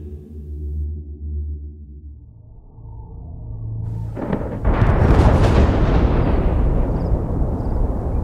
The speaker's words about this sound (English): Away across the night, the great paired mountains spewed arcs of orange fire. Their fury could be felt as well as heard, a continual mutter of thunder, punctuated by blasts that pained Raven's ears.